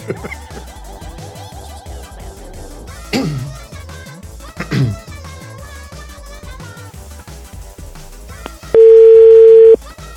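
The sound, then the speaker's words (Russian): A telephone tone while a number is dialed: one steady, pure-pitched tone sounds for about a second near the end, louder than the busy mix of voices and sound that fills the rest. “Одной рукой вы набираете номер”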